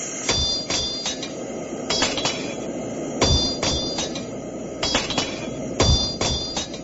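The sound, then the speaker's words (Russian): Metal ringing under hammer blows on an anvil at a forge, one worker tapping the anvil with a small hammer while a helper strikes the hot metal. Many sharp, bright strikes fall in a steady, repeating rhythm over a low background noise. “Я стучу по наковальне, а он бьет по металлу”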